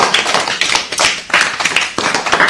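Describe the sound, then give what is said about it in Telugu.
An audience clapping after a speaker, a loud, uneven patter of many hands that pulses in repeated swells with short dips between them. “బాగా చెప్పారు కదా, చప్పట్లు కొడదామా?”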